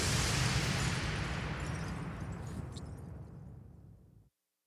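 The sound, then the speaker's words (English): Bomb explosion sound effect: a heavy, loud blast with a deep low-end rumble that slowly decays over about four seconds before cutting off abruptly into silence. “Bombs!”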